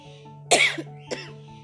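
A person coughing, two dry coughs: the first louder and longer, the second shorter and lighter, over a steady low hum.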